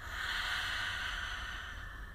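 A single long breath is exhaled through the mouth during a calming breathing exercise, a steady airy hiss lasting about two seconds, with no talk.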